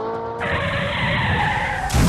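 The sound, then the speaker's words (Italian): An SUV skidding and crashing as a sound effect: a loud, sustained tire screech that ends in a sudden harsh burst of impact noise. “Eccala, ha distrutto il SUV.”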